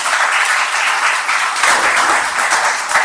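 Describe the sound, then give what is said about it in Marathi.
Loud, sustained audience applause greets the main speaker at a lecture event. Many hands clap in an unbroken, dense clatter that stays even in level the whole way through. “आदरणीय देशपांडेजी जरा जोरदार ताळ्या”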